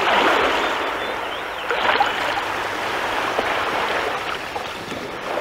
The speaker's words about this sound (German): schauten sie auf das Meer hinaus, und die großen und kleinen Wellen rauschten dazu an den Landesgrenzen.